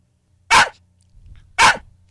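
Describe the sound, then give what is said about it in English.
Two sharp, loud dog barks, evenly spaced about a second apart, with a faint low hum in between and no talking. “Wait, no, I don't know where that sound's coming from. It's not from my apartment. That's a dog.”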